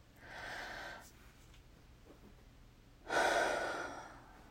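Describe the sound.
Two deep breaths taken during a stethoscope check, each a soft, airy rush of air. The second comes after a quiet pause and is louder and sharper than the first; no one talks.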